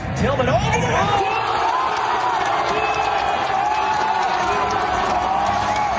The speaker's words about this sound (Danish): Og han har stået til et storskærmsarrangement i Seattle, og altså optaget videoen af USA's mål. Det lyder sådan her.